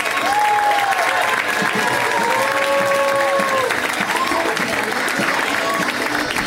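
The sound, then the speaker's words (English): An audience applauds as a comedian walks onto the stage at a stand-up comedy show, with dense, steady clapping from a crowd that stays loud and even throughout. “Put your hands together for the fantastic Lydia Popovich, everybody.”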